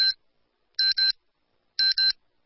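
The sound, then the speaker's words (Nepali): Radio time-signal beeps marking nine o'clock in the morning: high, clean electronic tones, one short beep followed by two evenly spaced double-beep pairs, separated by silence. “बिहान 9 बजेको प्रकृति समय सन्देश”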